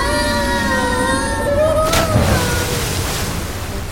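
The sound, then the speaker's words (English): Wet, surging sloshing inside a stomach, like a choppy ocean, forms a steady, fairly loud wash of watery noise with faint sustained tones drifting over it. “And it sounds very wet outside the coffin. That's because we are now officially in the stomach track. Why does it sound like the coffin landed in the middle of a choppy ocean?”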